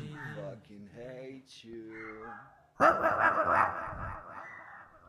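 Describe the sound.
A dog barks: a few short tonal yelps, then one loud, harsh bark that trails off over several seconds.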